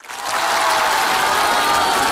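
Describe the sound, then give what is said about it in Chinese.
A theatre audience claps for crosstalk comedians, the applause swelling quickly in the first moment and then holding as a loud, dense, steady roar of hands. “谢谢， 谢谢大家， 感谢大家热烈的掌声啊！”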